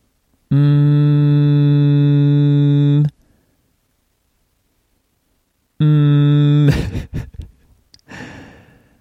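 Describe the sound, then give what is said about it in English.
A 400-hertz tone, loud, steady and buzzy, holds for about two and a half seconds, falls silent, then returns briefly before a person starts talking. “400 times per second, it switches back and forth between compressed and expanded air pressure, you hear what we call a tone, like”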